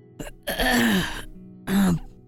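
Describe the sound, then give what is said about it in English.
A male character's throat clearing, voiced by a narrator, heard as two loud, rough, voiced bursts, a longer one followed by a shorter one. “steps behind Puck and clears his throat and says a few words”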